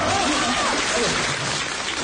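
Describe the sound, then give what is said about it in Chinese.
Audience applause for a performance of Peking opera singing. Thick, even clapping holds at a strong level throughout, with a voice briefly audible over it near the start. “您还给我鼓掌，真是是吧？ 大家热情啊，因为大家也喜欢京剧”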